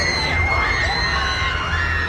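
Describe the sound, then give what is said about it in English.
Crowd screaming from riders on the La Ronde amusement park rides in Montreal, a dense, continuous wash of high-pitched shrieks and shouts that stays loud throughout with no pause. “That is a sure sign of La Ronde. Just the screaming.”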